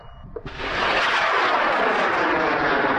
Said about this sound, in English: Launching thousands of feet into the air, a 5-metre-tall, 40-kilogram rocket takes off from a remote field in far west New South Wales.